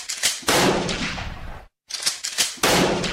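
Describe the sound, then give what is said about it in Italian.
Pistol gunshots in city streets, Sarajevo, 1914: loud, sharp cracks in rapid succession, each followed by a heavy sustained rumble. A brief silent break falls near the middle, then another quick burst of shots. “Colpi di pistola nelle strade di Sarajevo il 28 giugno 1914”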